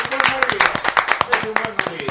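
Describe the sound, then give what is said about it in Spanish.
Audience applause for a model father: bursts of sharp claps come in an uneven run throughout, mixed with voices talking over them. “El aplauso, un padre.”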